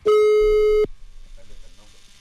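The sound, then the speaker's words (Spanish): A single steady telephone tone, loud and unbroken for under a second, sounds as a radio station dials a listener to put her live on air, then cuts off sharply and people talk. “Vamos a marcar entonces, de una vez de volada.”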